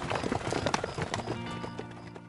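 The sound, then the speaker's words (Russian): Hooves of a strong gray horse clip-clop in a quick, steady rhythm, many hoofbeats in a row, fairly faint and alone without talk. “Теперь у меня есть свой собственный конь. Он серый, очень сильный, и я учусь ездить на нем».”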